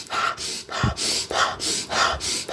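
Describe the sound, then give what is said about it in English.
Many sharp, forceful breaths in a fast, steady rhythm, part of an energizing breathing exercise that focuses on the inhale. Each breath is a short, rushing burst of air, evenly spaced and fairly loud. “What do we do? We focus on inhale.”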